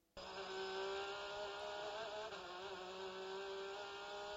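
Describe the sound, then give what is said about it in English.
A flat-six Porsche GTD race car of almost 4.2 litres drones steadily through a track corner between turns six and seven, a faint, even, buzzing engine tone that holds throughout with a slight wobble midway. “The unmistakable sound of a flat six Porsche is the 912 Earl Bamber”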